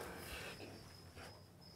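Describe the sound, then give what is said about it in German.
Faint grasshopper chirping, a thin steady high-pitched buzz that holds through the whole moment and fades slightly in places, with no voices over it. “Guck mal. Heuschrecke.”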